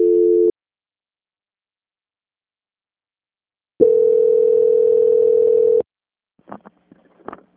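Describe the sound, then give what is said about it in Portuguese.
Telephone tones sound as a call is transferred: a short steady beep, then silence, then a longer steady tone lasting about two seconds, followed by a few faint clicks. “Só um instante, por favor, estou transferindo a ligação da senhora. Ok. Transferência.”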